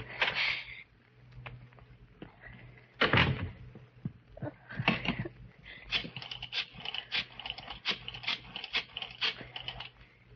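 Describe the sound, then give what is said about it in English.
A key is fumbled and rattled in a stubborn door lock. Scattered metallic clicks and scrapes come first, with a few louder jangles, then a quick run of small clicks toward the end. No one speaks. “Key. Where's my key? Darn this lock. Darn the lock.”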